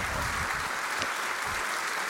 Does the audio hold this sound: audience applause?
yes